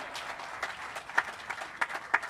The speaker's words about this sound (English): You can clap, that's okay.